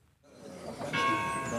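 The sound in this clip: A church bell strikes at three in the afternoon: a strong metallic stroke that hums on in a sustained ringing tone after a brief, softer low onset.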